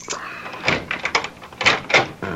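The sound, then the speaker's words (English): A key works a door lock, producing a run of metallic rattles, clicks and clunks of varying strength. “You open the lock. Okay, here goes.”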